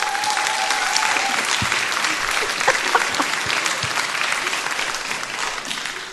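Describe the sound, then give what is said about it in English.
Applause from an audience, dense and continuous clapping that fills all six seconds at steady loudness, with a few sharper claps standing out. “I got a whoop. And applause.”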